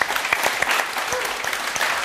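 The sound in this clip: Audience applause welcomes a guest onto the stage: a dense, steady patter of many hands clapping together, holding at an even level throughout without fading.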